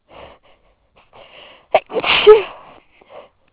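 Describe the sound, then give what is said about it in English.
A single loud human sneeze with a sharp catch of breath and then an explosive, breathy burst, set among faint sniffing and breathing sounds before and after. “sneezing all day.”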